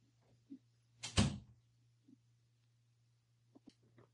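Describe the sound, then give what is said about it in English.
A door is opened to let in a dog that had been scratching at it, giving one loud, rattling thump in the middle, with a few faint clicks before and after over a steady low hum. “Excuse me one second while I let my dog in who's scratching at the door.”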